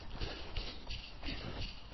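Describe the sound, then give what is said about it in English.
A person jogging on an out-and-back run makes faint, evenly spaced footfalls. Soft thuds in a steady rhythm come with light rustling. “So I'm just going to jog for a few more minutes to get myself going.”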